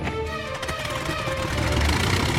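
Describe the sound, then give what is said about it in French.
An old biplane engine runs after a mechanic turns the propeller, giving a loud, steady, rough drone with a low rumble that swells slightly toward the end. “Un mécanicien tourne l'hélice. La carlingue vibre. Le tas de ferraille roule sur la piste.”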